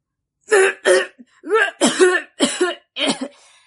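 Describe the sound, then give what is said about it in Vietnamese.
Dry coughing from a character in a narrated story: a run of several harsh, hacking coughs in an uneven rhythm, loud and alone between short silences, with one cough splitting into a double burst. “Sư đàn chủ ho khan chen vào.”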